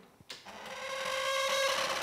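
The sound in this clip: An unoiled smoking machine runs with a steady whirring buzz and a sustained tonal hum. It starts after a couple of small clicks and holds at an even, moderate level to the end.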